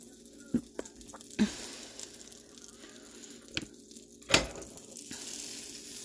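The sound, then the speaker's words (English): Low, steady sizzle of two grilled cheese sandwiches frying in butter in a pan over medium-low heat, broken by a few sharp pops and clicks, with no talking. “Put a little more butter in the pan. Some fat, and I'm making 2 grilled cheeses to go with my soup.”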